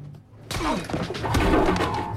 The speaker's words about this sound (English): Having decked the man with a vicious punch